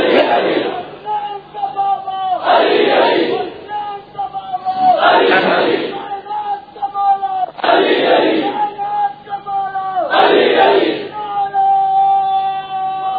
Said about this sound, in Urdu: تاریخی نعرہ آج کی تاریخ کا, معصوم کا انکار